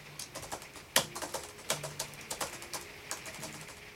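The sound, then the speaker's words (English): Typing on a clumsy, very old-fashioned laptop keyboard: many soft, irregular key clicks with a few sharper taps, faint and steady, with no voices. “I type on a clumsy, very old fashioned laptop. I hate modern, sleek laptops.”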